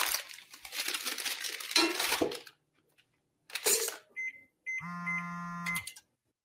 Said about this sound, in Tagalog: Aba, at may tumatawag.